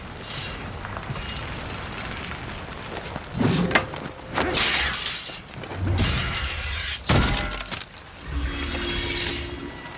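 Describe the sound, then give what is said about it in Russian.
In a martial arts film scene, steel knives shot from an umbrella are deflected by a spear: swishing whooshes, sharp metallic clinks and clattering, shattering impacts, with ringing tones left after some of the hits. “Цзы выпускает из зонта стальные ножи. Ян отражает копьем летящие на него ножи.”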